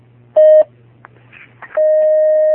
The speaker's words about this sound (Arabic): نأخذ هذا الاتصال.